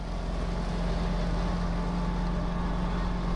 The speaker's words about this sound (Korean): 이거 제설차 아니야?